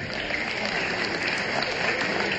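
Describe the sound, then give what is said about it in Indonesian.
An audience at a religious lecture about mothers applauds in a dense, steady clatter of clapping that holds at an even level for the whole clip with no clear breaks. “Tepuk tangan dulu buat semuanya.”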